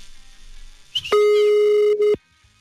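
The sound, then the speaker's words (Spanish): A telephone ringback tone plays while a call is being placed. A short rising chirp comes first, then one steady buzzy tone of about a second with a slight dip near its end, over faint background noise. “Ahí está marcando ya.”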